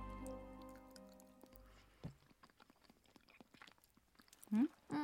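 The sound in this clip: Soft, wet chewing of a sauced food, quiet and close, with irregular small squishes and crunches after an opening stretch of faint tonal sound, and a brief vocal murmur near the end.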